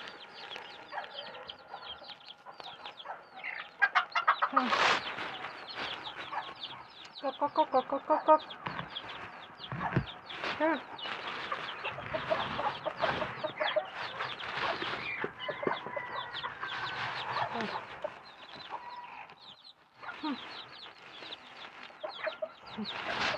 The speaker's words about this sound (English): Probably my smallest, tiny chicks.